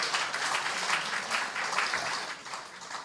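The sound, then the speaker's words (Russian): Applause from a church audience forms a dense, unbroken wash of clapping for a few seconds, moderately loud and even throughout. “Давайте дадим аплодисменты Богу.”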